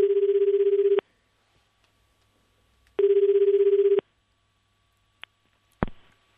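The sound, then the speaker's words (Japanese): An outgoing phone call rings out: two even one-second ringback tones separated by a two-second pause, followed by a short faint click and a sharper knocking clatter as the line is picked up. “電話かけていきましょう。”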